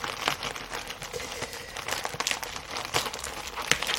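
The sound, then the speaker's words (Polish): Packaging crinkles and crackles as a mail-order parcel of music gear is unwrapped, producing a continuous stream of crisp plastic rustling with occasional sharper snaps. “Mam tutaj jeszcze opakowane. Teraz będę właśnie rozpakowywała.”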